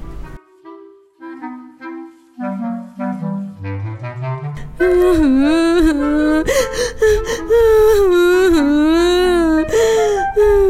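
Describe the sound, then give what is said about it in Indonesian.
A child cries, starting with broken, whimpering sobs and gasping breaths, then rising into a loud, sustained wail with wavering, quivering pitch. “BTW, itu siapa yang nangis?”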